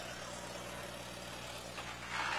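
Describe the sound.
A McCormick Farmall H tractor with a wide front end runs its engine, a faint, steady low rumble with a brief burst of hiss near the end.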